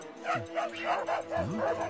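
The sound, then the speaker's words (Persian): Dogs bark and yip in quick succession, a run of short, mid-pitched barks mixed with whimpering tones that continues from start to finish. “ای وای، این سگا از کجا اومدن؟”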